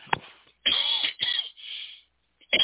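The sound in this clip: A speaker clears their throat with several harsh, rasping bursts separated by brief gaps, moderately loud with no other sound around them.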